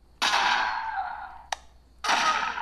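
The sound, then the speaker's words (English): Hissing blasts from air-powered toy guns in Green Invaders from the Red Planet, a Halloween game for trick-or-treaters run off an air compressor: two long, loud bursts of rushing air with a single sharp click between them. “Each gun has its own unique identifier, so I know who's shooting what alien. The way that works is we have an air compressor.”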